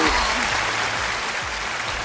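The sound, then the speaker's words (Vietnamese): A big round of applause from an audience congratulating a winner at a live event: a brief burst of dense, steady clapping that stays level throughout. “Cho em xin một tràng pháo tay thật lớn.”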